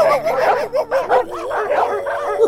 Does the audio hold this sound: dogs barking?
yes